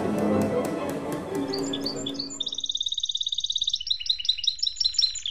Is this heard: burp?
no

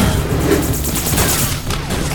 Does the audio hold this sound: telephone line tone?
no

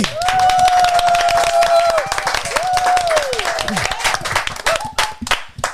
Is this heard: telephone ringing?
no

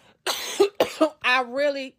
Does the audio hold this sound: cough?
yes

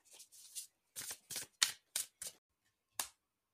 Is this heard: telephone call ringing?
no

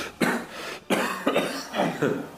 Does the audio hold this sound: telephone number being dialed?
no

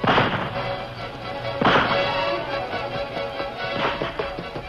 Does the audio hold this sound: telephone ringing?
no

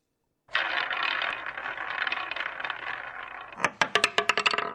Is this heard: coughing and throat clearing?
no

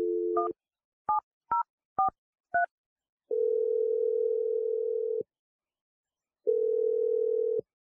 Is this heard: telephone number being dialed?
yes

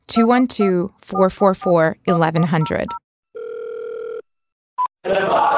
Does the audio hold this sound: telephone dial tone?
yes

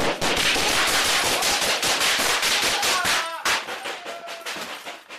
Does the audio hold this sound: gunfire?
yes

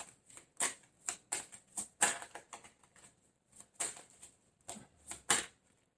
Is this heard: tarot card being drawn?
yes

